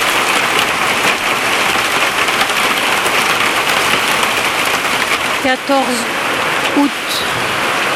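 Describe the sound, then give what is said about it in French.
Hail falling during a summer thunderstorm in August, a dense, loud, unbroken hiss of pelting stones that holds steady from start to finish. “Et soudain, la grêle.”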